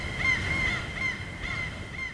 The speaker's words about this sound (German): Möwenschreie dringen durch das dünne Blechdach, werden verstärkt wie durch eine riesige Trommel.